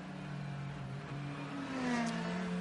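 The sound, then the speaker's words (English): A Ferrari race car pulling away from a pit stop during an endurance race, heard as a steady, fairly faint engine drone with a tonal hum that swells slightly toward the end. “Off and away, Albert Costa goes in the Conquest Racing Ferrari.”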